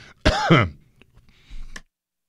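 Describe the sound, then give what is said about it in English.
A man coughs in two bursts, a strong rasping one followed after a pause by a shorter, weaker one, with no talk around them. “I got a cough and I don't want to.”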